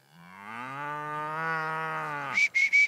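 A bull on a farm gives one long, low moo that swells gradually, holds steady and then breaks off abruptly.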